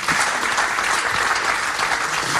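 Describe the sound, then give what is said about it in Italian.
An audience applauds after a poetry reading of unpublished poems, a steady, dense round of clapping that holds at an even level throughout. “Facciamo un bel applauso.”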